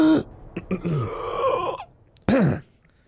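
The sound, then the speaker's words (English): A man chokes and coughs on a fishbone, making strained, wavering throaty gasps that rise and fall, then a sudden harsh cough-like burst before trailing off. “He chokes a bit. Help me, I can't breathe. Fishbone.”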